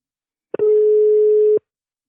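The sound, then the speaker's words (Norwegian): A single telephone ringing tone from an outgoing call: a short click, then one steady mid-pitched beep lasting about a second before silence. “Men skal vi bare ringe opp Philip med en gang, da? Ja, vi gjør det.”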